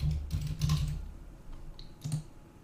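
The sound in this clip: Someone types a search term on a computer keyboard in keyword research software, producing a few quiet, crisp key clicks clustered early on, with another short burst near the end.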